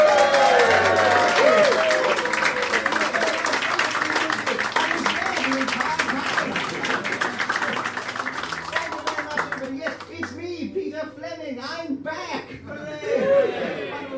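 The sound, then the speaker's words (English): An audience applauds to welcome a performer, with loud, dense clapping and crowd chatter and laughter that thins out toward the end, while a voice speaks over it. “Please put your hands together and welcome to the space-time continuum.”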